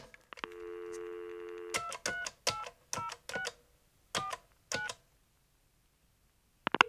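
A telephone number is dialed: a steady, held tone gives way to a series of short, crisp keypad beeps in an uneven rhythm. Silence follows, broken by a brief click at the very end.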